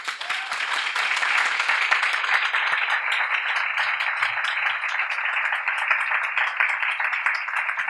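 An audience applauds to welcome guests at a Miami event. Dense, even clapping runs steadily for about eight seconds with no talk over it.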